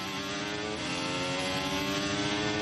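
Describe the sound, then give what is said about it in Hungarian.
A Formula 1 racing car accelerating out of a corner, its engine a loud, sustained, high-pitched drone with dense harmonics that holds steady for the whole stretch. “Nézzük a kigyorsítást, szűkebben fordul Perez egy picit.”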